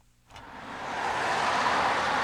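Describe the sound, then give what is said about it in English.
Morning traffic streams past a busy city intersection in a South Seattle neighborhood. After a brief quiet start, the broad roar of passing vehicles swells and then holds as a steady wash of engine and tire noise. “Morning traffic streams past a busy intersection in a South Seattle neighborhood.”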